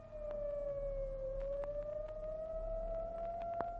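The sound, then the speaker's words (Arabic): A fire engine siren wails steadily as the truck passes, holding one loud sustained tone that dips slightly in pitch, then climbs gradually, with a few faint clicks underneath. “وتمر بنا الآن إحدى سيارات المطافي، ويبدو أنها في الطريق إلى مكان الحصار المضروب على الأسد الهارب في المنطقة الواقعة عبر الضفة الأخرى من النيل.”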